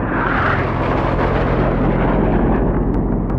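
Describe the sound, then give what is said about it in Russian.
Airplanes flying over a city, heard as a loud, continuous roaring rumble that stays steady throughout, with no voices. “На радаре точки приближаются к контуру отмеченной зоны. Самолеты летят над городом.”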